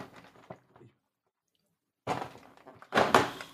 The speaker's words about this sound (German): Heute aufmachen Türchen Nummer 9.